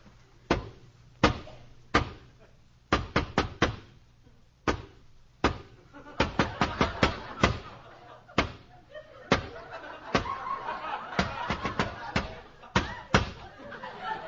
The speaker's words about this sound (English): Just follow me right up these steps. I'll give the special knock.